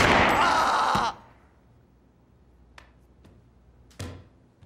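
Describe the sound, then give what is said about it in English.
A gunshot in a scene from the TV drama Degrassi: a loud, harsh burst of noise that lasts about a second, then cuts off into a dull fading tail, followed by a few faint clicks and a softer thud. “So, yeah, Jimmy has been shot.”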